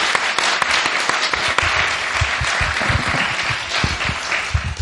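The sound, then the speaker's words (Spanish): An audience applauds a guest at a live Tolkien fan convention event, with many overlapping claps forming a steady, dense patter throughout. “Dale un aplauso, por favor.”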